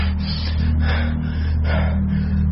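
A man panting after waking suddenly from a nightmare, sitting up in bed soaked in sweat. A few heavy, rasping breaths rise and fall over a steady low hum.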